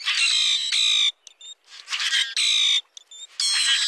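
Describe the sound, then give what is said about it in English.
A common grackle sings in harsh, metallic, buzzy bursts with a squeaky, almost mechanical ring. The bursts alternate with brief gaps and a few thin, high, squeaky notes. “Some birds sound almost mechanical, like the metallic song of the common grackle”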